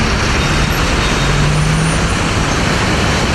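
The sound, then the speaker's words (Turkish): Steady roar of city road traffic in Istanbul as a convoy of vehicles weaves between lanes: dense, constant engine and tyre noise with no breaks, and a faint low drone running through the middle. “Konvoydaki bazı sürücüler trafiği hiçe sayarak araçlarıyla peş peşe slalom yaptı.”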